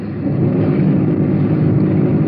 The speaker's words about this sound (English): The streets are just a bit slick. We have to sort of watch our traction. Rolling a lot in second gear.